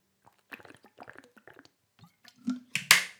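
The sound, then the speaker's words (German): Drinking from a green water bottle with a lid: soft clicks and small wet squishes, then a low gulp-like thump and a couple of louder, sharper liquid bursts at the end. “Jetzt muss ich kurz trinken.”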